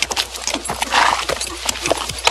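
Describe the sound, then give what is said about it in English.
Four horses with riders enter a compound, their hooves clopping in a busy, uneven patter of many hoofbeats at steady loudness. “as 4 men on horseback enter the compound”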